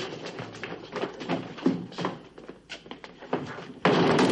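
A dispensary door being shut in a hurry, with a run of dull wooden thuds and knocks followed by a sudden louder burst at the end, and no voices.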